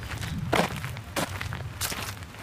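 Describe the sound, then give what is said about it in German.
Footsteps of someone walking from a café over to the Landtag, a few slow, evenly spaced steps that land as soft thuds over a low, steady background hum. “Zu Fuß geht es vom Café rüber in den Landtag.”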